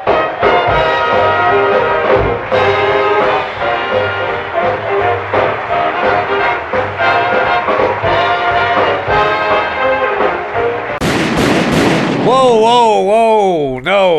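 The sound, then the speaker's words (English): Gunshot sound effects fired at Dean Martin during a Sands Hotel show introduction in Las Vegas: many sharp bursts cut through a dense, tonal backing, with warbling tones near the end. “No, that's not funny. First of all, that's not funny because you're shooting Dean Martin. Second, it's not funny because you're Las Vegas and shootings.”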